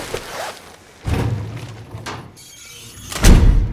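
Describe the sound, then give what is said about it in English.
A cadaver drawer in an autopsy room is shut after a body bag is zipped, giving two heavy thuds with a low rolling rumble between them, the second thud louder. “She quickly zips the body bag and shuts the cadaver drawer.”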